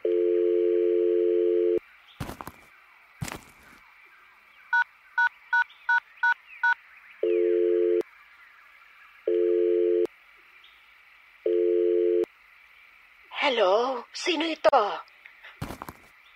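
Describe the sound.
Telephone dialing tones from a phone call: a steady low tone, then a quick run of six short keypad beeps, followed by repeated long tone bursts, with a brief voice near the end.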